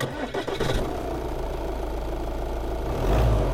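A car engine catches with a few rough bursts and settles into a steady, droning run, growing slightly louder and deeper toward the end.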